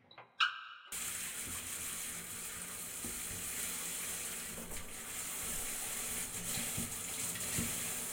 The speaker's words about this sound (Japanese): じゃあそろそろシャンプー流しちゃおうね。